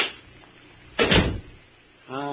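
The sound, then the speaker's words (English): A door to a crypt room closes with a single short, solid thud and rattle after a quiet pause. A voice starts speaking shortly afterward. “Come inside and close the door.”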